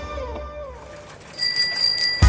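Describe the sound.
A bicycle bell rings with bright, high metallic trills through the second half, clear and fairly loud above a steady mixed background sound.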